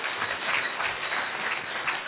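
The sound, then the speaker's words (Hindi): An audience claps after a talk at a spiritual gathering: an even, continuous patter of many hands, muffled in tone and holding a steady level throughout. “बहुत सुंदर practical युक्तियां हमने सीखी है भाई जी से, एक बार और सभी ताली बजाएंगे।”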